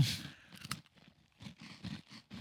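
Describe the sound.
Someone bites into a dry, very crunchy cookie with no filling or pieces, giving crisp crunches followed by a run of rhythmic chewing crunches, all fairly faint.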